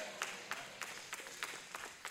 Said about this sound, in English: Now, thank you for the four that clapped.